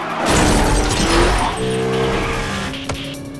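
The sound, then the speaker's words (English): A police car smashes into an oncoming vehicle during a car chase, a loud crunching, shattering impact with skidding tires, followed by lower rumbling and a brief sharp hit near the end. “A police car smashes into an oncoming vehicle while Belle and Vanessa drive past on either side.”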